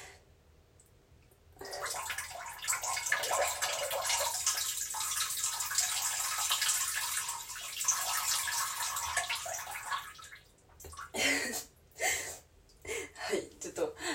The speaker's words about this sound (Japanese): ちょっと早速なんですけど、ちょっとおしっこしちゃいたいと思います。音聞こえますかね。ちょっとしていきますね、おしっこ多分すぐ出ちゃうと思います。